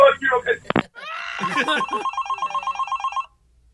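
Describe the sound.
A telephone rings with a rapid, steady electronic trill of many short pulses, following a brief burst of voices at the start.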